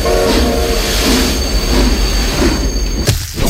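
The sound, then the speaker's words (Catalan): Loud, steady rumble of a passing train runs throughout, with metallic tonal ringing and a horn-like tone mixed into the roar. “Què ha passat? L'ha atropellat un tren.”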